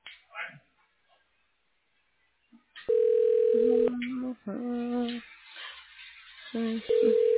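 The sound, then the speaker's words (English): Telephone line tones during a call transfer: sustained electronic tones that alternate between higher and lower pitches, broken by short gaps. The tones are loud and steady and follow a few brief, soft sounds at the start. “I'm going to transfer you to the administrator's voicemail.”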